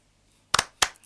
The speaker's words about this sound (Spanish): Un aplauso para Santiago Alasia, con un poema muy bello, muy profundo y una lectura a la altura.